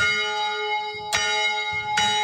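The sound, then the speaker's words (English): An old fire station bell, rung by pulling a rope, strikes twice with bright metallic clangs over a continuous ringing hum of overlapping tones. “a line of rope running up through the first and second floors to the roof, where, back in the day, it could be pulled to ring a bell. And yes, they kept the bell, too.”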